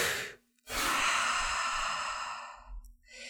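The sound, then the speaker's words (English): A deep breath taken before a spoken affirmation: one long, loud, airy breath lasting about two seconds after a short pause, followed by a brief softer breath, with no talk. “And take a deep breath first.”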